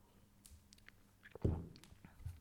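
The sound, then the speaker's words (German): A sip of coffee: faint mouth clicks in near silence, then one short, louder slurping gulp midway, followed by soft mouth sounds. “Ich trinke mal einen Schluck Kaffee.”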